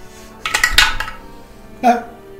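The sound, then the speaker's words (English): Dice clattering through a dice tower during a tabletop role-playing game stealth check: a quick burst of rattling knocks, then one more clack shortly after. “Dice tower.”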